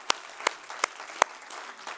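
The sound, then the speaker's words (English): Hand claps ring out as a church audience welcomes its online and cable viewers: four sharp, evenly spaced claps stand out clearly, followed by a fainter one near the end. “I want to welcome all our online and cable viewers as well. Can you guys give them a big hand?”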